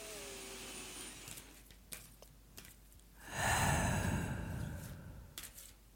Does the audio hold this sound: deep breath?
yes

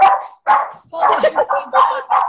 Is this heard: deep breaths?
no

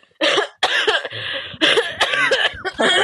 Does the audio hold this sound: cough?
yes

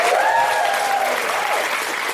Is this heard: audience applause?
yes

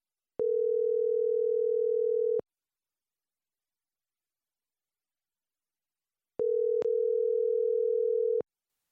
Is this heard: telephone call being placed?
yes

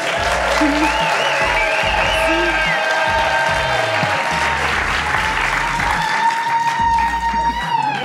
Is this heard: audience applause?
yes

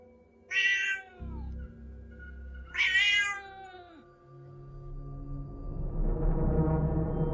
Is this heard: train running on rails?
no

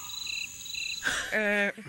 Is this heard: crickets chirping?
yes

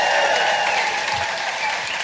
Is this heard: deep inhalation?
no

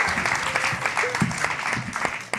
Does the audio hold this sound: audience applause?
yes

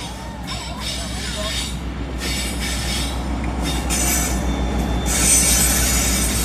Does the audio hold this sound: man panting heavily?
no

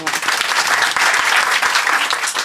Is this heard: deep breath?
no

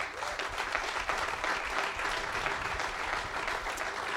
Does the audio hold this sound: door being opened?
no

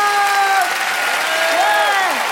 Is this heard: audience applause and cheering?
yes

